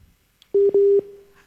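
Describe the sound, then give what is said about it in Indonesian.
A telephone busy tone sounds after a call is cut off. After a faint click come two short, loud beeps of a steady mid-pitched tone, then the tone trails off quietly. “Terputus kah? Halo. Halo. Waduh, terputus ya”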